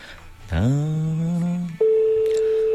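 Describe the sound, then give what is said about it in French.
Telephone ringback on a call to a retirement home: a rising, buzzy tone that settles, then breaks into a steady, pure, mid-pitched tone that holds clearly to the end. “Ça sonne, 18h32, c'est une maison de retraite.”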